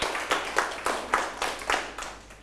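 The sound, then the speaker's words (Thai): Classmates clap in unison for a fellow student in a classroom, a rhythmic run of sharp, evenly spaced group claps about a quarter second apart that softens toward the end. “เอาปรบมือเพื่อนหน่อยครับ”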